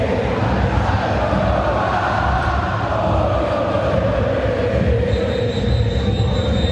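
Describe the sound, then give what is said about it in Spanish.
Boca fans fill a football stadium with a tense, nervous roar during a match, a dense and continuous wash of crowd noise holding at a steady, loud level throughout with no distinct chants. “Escuchen al público de Boca que está nervioso. Que le está pidiendo el equipo que se mueva.”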